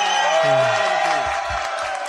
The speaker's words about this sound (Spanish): Sí, un aplauso, ¡vamos!